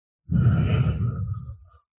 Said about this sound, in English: And all together, right now, we'll breathe in air. And slowly let it out.